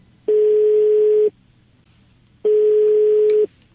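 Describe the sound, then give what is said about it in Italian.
An unanswered telephone ringing, two steady ring tones of about one second each at a single flat pitch, separated by a pause of just over a second. “Tre mesi dopo il nostro incontro a Idomeni, cerco di contattarlo, ma il telefono di Samer suona a vuoto. Poi, a un certo punto, qualcuno risponde.”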